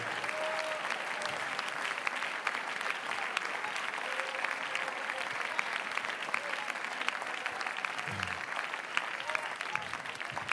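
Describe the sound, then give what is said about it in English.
A standing audience claps its hands at a church service. The clapping is dense and continuous for the whole span, with faint voices mixed beneath it. “I want everybody to stand with me and clap your hands to the Lord for a moment.”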